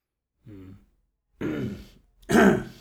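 Throat clearing as a man tries to shift something stuck in his throat: three separate rasping bursts, the first a soft voiced grunt and the next two harsher and louder.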